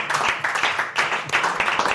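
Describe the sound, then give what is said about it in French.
Audience applause at a live comedy panel show recording, brisk clapping in uneven bursts with a few louder peaks, holding steady for the full stretch. “N'applaudissez pas ça, voyons.”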